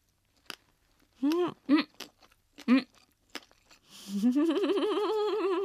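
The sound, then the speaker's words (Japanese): Crisp crunches of yellow pickled daikon (takuan) being chewed, a few sharp snaps scattered between short voiced sounds, ending in a long, wavering hum from a voice. “このたくあんめっちゃ効いてるでしょ、 うん、 たくさん、 うん、バキバキバキって言ってます、すごい、 だからこのね噛む時のパキって音がするのがなんかもうすごい”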